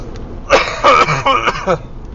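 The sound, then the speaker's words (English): A series of rough, throaty coughs from a man, several bursts in quick succession at moderate loudness, with no talk over them. “excuse me for the cough”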